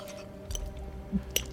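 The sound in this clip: Someone chewing food, heard as a few soft, moist squishing bites with brief crunchy clicks, faint and without talk.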